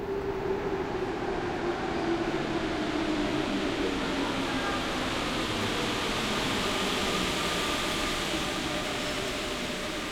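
A subway train ride in Lyon, heard as a continuous broad roar of wheels and carriage noise with a faint steady whine running through it, unbroken for the whole span.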